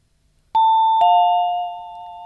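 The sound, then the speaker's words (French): Doorbell ringing: a loud, two-tone ding-dong, a higher chime followed by a lower one, each ringing on and slowly fading. “Tiens, on sonne.”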